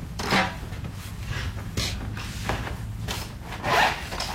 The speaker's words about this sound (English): The sounds of a local artist drawing a charcoal portrait from life at Saw Studios in Carbondale.